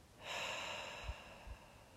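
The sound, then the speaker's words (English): A slow, deep breath during a guided breathing prayer makes a soft, airy rush that holds steady for about a second and then tapers off, quiet and alone. “And one final breath in and out.”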